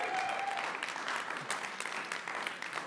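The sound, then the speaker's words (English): An audience applauds during a Christmas church service. Dense, steady clapping runs at moderate loudness throughout, with no pause. “So I actually want to say, give yourselves an applaud for”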